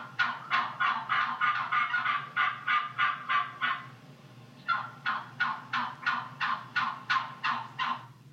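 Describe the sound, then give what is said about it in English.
A male turkey gobbling in two long runs of rapid, evenly spaced rasping pulses, with about a dozen in the first run, then a brief pause before a second similar run; loud and clear with no voices. “That's a boy turkey right behind her.”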